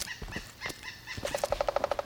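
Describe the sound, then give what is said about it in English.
A pileated woodpecker calls, first with a few scattered, faint higher notes, then with a quick run of evenly spaced, clipped notes that form a steady rhythmic series. “Oh, pileated woodpecker.”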